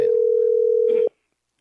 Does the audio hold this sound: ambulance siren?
no